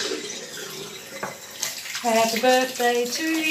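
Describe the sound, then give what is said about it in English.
Hands are washed under a running tap, giving a constant hiss of flowing water. Partway through, a singing voice joins in over the steady stream. “Washing our hands.”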